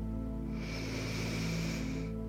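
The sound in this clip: A deep inhalation during a guided breathing exercise: a soft, steady, airy hiss lasts about a second and a half over a quiet sustained tonal background.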